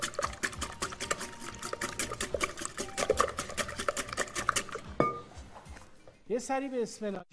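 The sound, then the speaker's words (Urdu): Brisk whisking and stirring of a mixture in a bowl as salt is worked in, many rapid clinking strokes in a steady rhythm, then a short lull and a voice speaking at the end. “اس کو خوب پھینٹ لیں گے اور اس میں نمک بھی ملا دیں گے۔”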